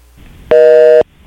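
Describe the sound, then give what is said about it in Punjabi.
Busy tone from a disconnected telephone line: one loud, steady electronic tone lasting about half a second, with an abrupt start and cutoff and faint murmur before and after. “ਮੈਨੂੰ ਲੱਗ ਰਿਹਾ ਕਿ ਉਹਨਾਂ ਦੀ line disconnect ਹੋ ਗਈ ਹੈ”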